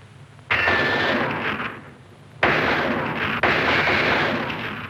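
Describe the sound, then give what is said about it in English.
Gunfire at a military target-shooting session, three loud sharp blasts, each trailing into a long rumbling decay, the second and third coming close together, with no talk. “Hey, that was 96 points. Good shooting. My turn now. Look, watch real shooting.”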